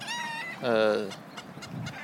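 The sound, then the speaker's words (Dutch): Chickens calling in an orchard where many hens roam and scratch for worms: a few short harmonic clucks, then one louder, drawn-out squawk, followed by softer scattered rustling and low clucking. “Dat is een boomgaard waar ook heel veel kippen rondscharrelen.”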